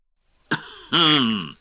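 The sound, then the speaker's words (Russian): A male reader clears his throat into his fist: one short rough burst, then a longer voiced, groan-like rasp that fades, alone with no talk. “Кашлянул в кулак, отдохнувший и промочивший горло чтец.”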